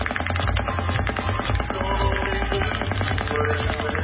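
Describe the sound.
Gunfire from two guns firing out of sync is heard in a played-back recording as a dense, continuous rattle of rapid shots with a muffled, band-limited tone.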